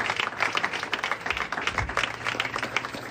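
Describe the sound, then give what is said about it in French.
An audience applauds the mothers, a fairly soft patter of many hands clapping steadily in an even wash for a few seconds. “il faut de plus, acclamons pour les mamans, parce que les mamans font un travail exceptionnel.”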